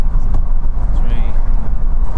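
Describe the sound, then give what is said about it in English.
Low, steady engine and road rumble inside a car, a dense continuous drone with no distinct events. “Right, so we're just back in the car after a very nice full English breakfast.”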